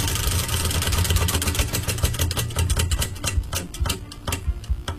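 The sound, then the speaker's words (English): Rapid ticking of a prize wheel spun to choose a quiz category, the clicks coming fast at first and then spreading out as it slows, over a low droning background. “we'll spin the wheel now to find out just what that category will be.”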